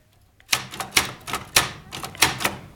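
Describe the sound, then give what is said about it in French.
Typewriter keys are struck in a quick, irregular run of many sharp mechanical clacks, each followed by a short rattle. The typing stands alone, with no voices. “Maintenant, j'ai une machine à écrire.”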